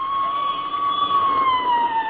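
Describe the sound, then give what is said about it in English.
Wailing siren of a passing police squad car: a steady, high, continuous tone that sags slightly in pitch toward the end. “There goes another squad car”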